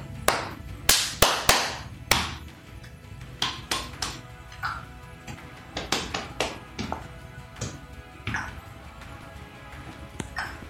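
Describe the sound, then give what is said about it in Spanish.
Body percussion made by children: many sharp claps, slaps and taps in an irregular rhythm, loudest and densest at first, then lighter and more scattered, with a little background noise between hits. “Y estos son los sonidos que hicimos con mi cuerpo.”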